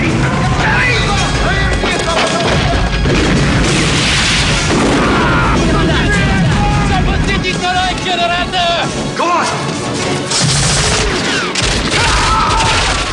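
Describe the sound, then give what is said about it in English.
Grenade explosion collapsing a walkway in a Rambo film, heard as a loud, dense roar of booming blasts and crashing debris that continues throughout with little let-up. “Rambo lobs a grenade, collapsing a walkway. Two guards fall to their doom.”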